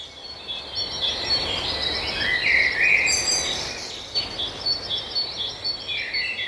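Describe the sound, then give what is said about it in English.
Birds singing: high, bright chirps and trills repeating over a steady background hiss, with a louder burst of calls near the middle. “Yes, it's the sound of birds.”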